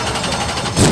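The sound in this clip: Race car engine roaring at full throttle on a Red River Valley speedway, a loud, rasping continuous drone that swells louder right at the end.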